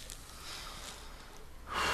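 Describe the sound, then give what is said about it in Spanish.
A breath is drawn in during a guided spiritual meditation lesson. Faint background hush gives way near the end to one short, airy, fairly loud intake of breath. “Inhala bien profundo”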